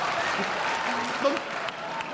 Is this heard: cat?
no